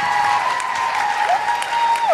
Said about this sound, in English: Vancouver, could you give yourselves an enormous round of applause for coming out, getting through the snow?